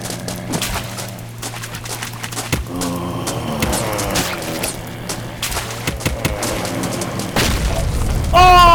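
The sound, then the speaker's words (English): A grenade explodes in a shooter video game. After a stretch of scattered clicks and rumbling noise, one loud boom bursts near the end. “I threw a grenade up there and tried to get back.”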